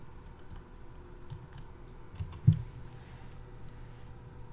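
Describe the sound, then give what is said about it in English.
Faint typing on a computer keyboard while a product name is entered into a shopping site's search, heard as a few soft, scattered key clicks over a low steady hum. “And now I'm going to type in HTC Vive.”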